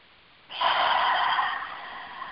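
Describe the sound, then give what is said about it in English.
A single deep breath in a guided breathing exercise starts abruptly after a short silence as an airy, hissing rush of air, then gradually fades while it trails off. “Everybody say out loud and breathe.”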